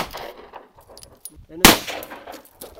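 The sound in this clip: A single sharp, loud gunshot from a gun fired at a target, the bullet striking dirt, with a quick decaying tail amid quiet surroundings.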